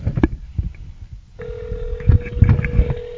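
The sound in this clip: A telephone call rings out over a speakerphone and goes unanswered. A steady electronic ring tone starts midway and holds among bumps and handling noise at fairly low volume.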